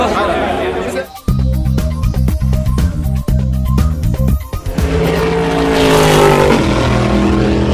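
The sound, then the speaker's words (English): Race cars at an endurance motor race: loud engine tones that step and slide in pitch, over constant crowd chatter. “Because it's the best motor race in the world.”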